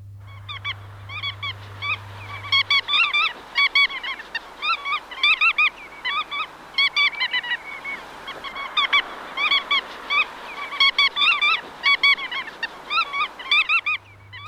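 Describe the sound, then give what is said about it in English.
Bar-tailed godwit calling: many loud, clipped, nasal notes in quick bursts and clusters, repeated throughout over a steady background hiss, with a low hum at the start and end. “And that is the call of the godwit, such a beautiful bird, the bar-tailed godwit, the kuaka.”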